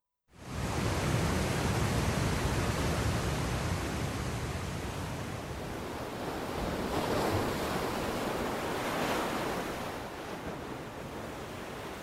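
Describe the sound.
Ocean waves at the sea, a broad, steady roar of surf that starts abruptly and washes on continuously, swelling gently in a couple of slow surges before easing slightly.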